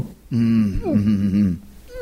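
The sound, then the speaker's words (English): A voice imitates the involuntary breath-hold contractions of a freediver near the end of a long dive: a strained, low groaning hum lasting just over a second with a brief wobble in pitch, then a short rising voiced sound. “I started getting those involuntary compressions or whatever it's called, where you hold your breath so long and you're so exhausted that you start going like,”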